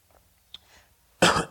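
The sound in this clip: A single harsh cough from a tickle in the throat during a sermon, a loud, abrupt burst that follows a few faint, small throat sounds in near quiet.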